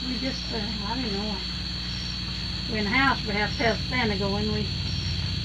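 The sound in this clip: Night insects buzz around outdoor lights, a steady high-pitched drone and chirring that runs unbroken beneath people talking throughout.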